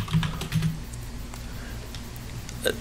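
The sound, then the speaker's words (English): Typing on a computer keyboard in a chat app: a faint, irregular scatter of soft key clicks over a low background hum. “It was necessary to begin typing Kundu in the Discord.”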